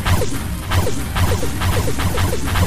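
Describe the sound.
D-Blaster energy shots in Sun Mode strike armor in a rapid, loud series of sharp smacks and whooshing impacts, evenly spaced with no pause between them.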